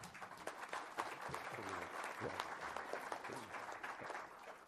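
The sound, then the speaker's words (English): Audience applause welcoming a new director and CEO to a FIAF gathering, quiet but steady clapping throughout, with a voice briefly audible over it. “So please give a warm hand of welcome to Katrina.”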